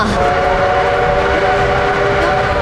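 A train arriving at a station, heard as a loud, continuous rolling rumble with a sustained whistle-like tone layered over the dense noise throughout.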